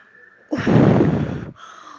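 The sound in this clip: Sharp, deep inhale from a narrator voicing the wolf in a Tamil telling of the three little pigs. One breathy rush lasts about a second, alone with nothing over it.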